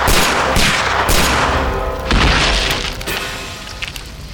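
Shotgun fire blasts into trees as a dense run of heavy booming shots, loud and rough, overlapping with crackling rumble and no voices.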